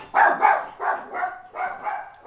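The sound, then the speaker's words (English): Dogs barking: a quick run of several sharp, mid-pitched barks comes in uneven pairs, fairly loud and without talk. “I apologize for my dogs.”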